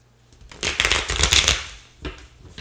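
Archangel Michael oracle cards are shuffled before a reading: a loud riffling flutter lasts about a second, then a shorter second burst of card flicks follows.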